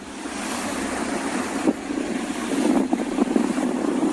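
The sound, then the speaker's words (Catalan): Motorboats, about twenty of them, chase and surround a group of three whales at sea. A steady engine drone mixes with wind buffeting and rushing water, and the rumble grows louder and rougher toward the end, with no voices. “Aquest és el so d'un alt de les imatges que s'han fet virals aquestes últimes hores, el moment en què ahir a la tarda una vintena d'embarcacions perseguien i envoltaven un grup de tres balenes”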